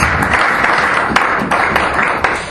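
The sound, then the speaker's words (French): A church audience applauds during a French-language service, filling the stretch with loud, dense clapping and a few sharper claps that stand out over the steady wash. “Acclamons très fort pour le Seigneur.”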